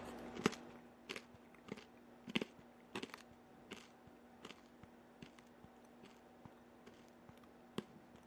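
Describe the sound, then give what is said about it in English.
Hard candy crunches in close-up ASMR chewing: many crisp bites at a fairly regular pace, each a sharp click-like crack over a low, quiet background, with no talking. “Hold on, I'm going to do more candy ASMR.”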